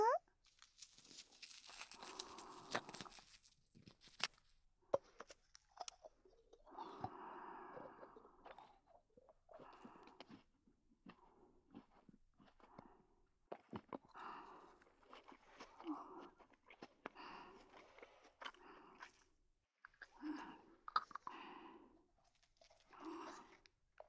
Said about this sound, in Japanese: 次はこっちのお耳で食べるよ。